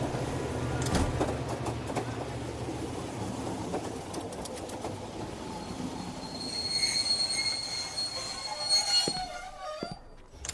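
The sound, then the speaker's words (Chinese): A passenger train arrives at Qinling station with a rumbling roll and clattering wheels, then shrill, high-pitched wheel squeals rise in the second half as it slows. No one speaks. “各位客请注意，列车即将到达秦岭车站，有在秦岭车站下车的旅客，请您整理好。”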